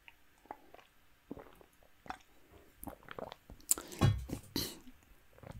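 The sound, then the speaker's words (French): Gulps of water being drunk, heard as a few faint wet swallowing and mouth clicks, with a couple of louder gulping bursts toward the end. “Et boire un coup d'eau, tiens. Je dois être déshydraté.”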